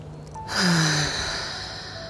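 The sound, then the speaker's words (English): A deep breath taken in through the nose and released as a long, breathy exhale that swells quickly and then fades slowly. No one speaks over it. “Big inhale through the nose and release it. Once more.”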